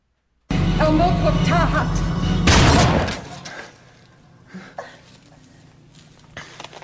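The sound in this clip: Gunshots in a movie scene where a woman chants a spell: a loud, dense burst of gunfire over voices, dropping abruptly to quieter scattered sounds and faint knocks.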